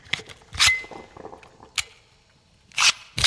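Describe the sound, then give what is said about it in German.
Pistol slide snapping forward after a magazine change, heard as a few sharp, bright metallic clicks and snaps between quieter handling noises, with no talk. “Der Schlitten schnappt wieder nach vorn und die nächste Patrone ist im Lauf.”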